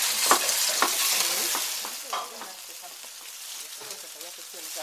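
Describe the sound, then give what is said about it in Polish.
Oil sizzles in a frying pan, with stirring in the pan. A soft, crackling hiss with light scraping is loudest at first, then eases to a quieter, steady fizz. “I teraz patelnia jest? Nie. Naszykuj patelnię. Nalej troszeczkę oleju.”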